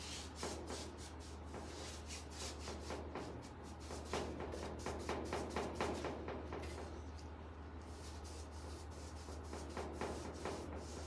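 Paintbrush bristles stroke paint onto panels with a drying brush: continuous soft scrubbing and rubbing in many quick, rhythmic strokes, quiet over a low steady hum.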